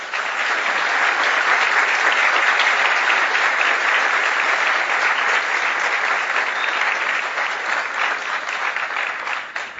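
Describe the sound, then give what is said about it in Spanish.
Sustained audience applause welcoming a speaker at a theology conference lecture, dense and steady clapping holding at an even, loud level for about ten seconds before easing slightly at the end. “Lo recibimos con un fuerte aplauso.”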